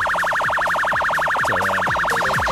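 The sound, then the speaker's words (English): A loud electronic siren wails in a rapid, steady warble, rising and falling over and over with no other sound over it. “The next time you hear that siren, you'll know it's me going past your house in the morning.”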